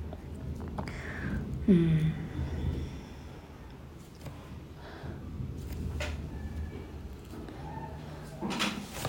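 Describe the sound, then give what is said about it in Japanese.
A window is slid shut, a scraping slide with a brief squeal early on, followed by softer knocks and rattles over a low rumbling background. “すいません、窓閉め”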